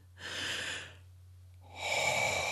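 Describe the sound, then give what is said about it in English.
Deep breath drawn in during a guided meditation session: a soft, breathy rush of air lasting close to a second, followed after a short quiet gap by a second breathy stretch, over a steady low hum. “take a deep breath in.”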